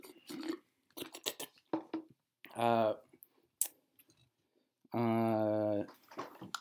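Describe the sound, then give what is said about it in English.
Ice rattling in a mostly empty cup of sweet tea: quick, irregular clicks and clinks come in short bursts, with voices sounding in between. “But now they're mostly empty and you can hear the ice rattle.”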